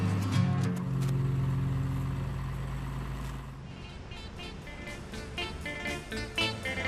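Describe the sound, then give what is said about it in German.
A camper truck drives east out of Helsinki after a ferry crossing. A steady low engine drone with road rumble turns rougher and noisier midway, and a few light knocks and clicks come near the end. “Nach 30 Stunden auf der Fähre sind die beiden in der finnischen Hauptstadt angekommen und fahren mit ihrem Wohntruck Richtung Osten.”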